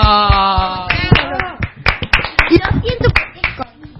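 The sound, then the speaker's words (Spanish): Audience applause after a short song performance: a sustained sung or played tone gives way to a burst of scattered hand claps that thickens and continues to the end, with voices mixed in. “Muy bien, un aplauso.”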